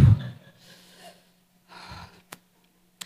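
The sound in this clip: A person takes a deep breath to calm down: two soft, airy rushes of breath with a pause between them, followed by a couple of small clicks.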